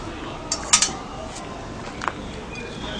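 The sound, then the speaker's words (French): A baked cake is turned out of its mould onto a small plate, giving a few light clinks of dish and cutlery against a steady low background hiss. “Donc je vais le démouler devant vous. Je mets une petite assiette comme ça dessus. Et je le retournais tout simplement.”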